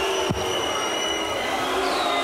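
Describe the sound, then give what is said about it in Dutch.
A darts crowd at an International Darts Open second-round evening session whistles at a player, with sustained high whistles over a steady murmur of crowd noise. “Trekt zich weinig aan van het fluitende publiek.”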